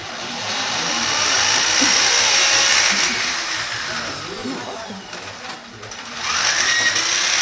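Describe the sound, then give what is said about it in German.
A power drill bores into a wall at a Repair Café with a loud, sustained buzzing whine that dips briefly partway through and then comes back at full strength. “wird jetzt gebohrt. Im Repair-Café wird nicht nur repariert, sondern auch kaputt gemacht. Die Wand.”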